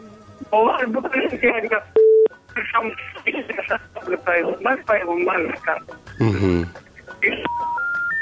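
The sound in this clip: A phone call breaks up and drops: a man's voice over the line cuts in and out around a short beep, then falls silent as a few stepped tones rise one after another at the end.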